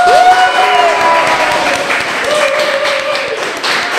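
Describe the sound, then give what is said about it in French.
Applause from a live audience gathered at a new factory venue, a dense, steady wash of clapping that stays loud throughout. “C'est sur cette pluie d'applaudissements que je commence le balado numéro 12.”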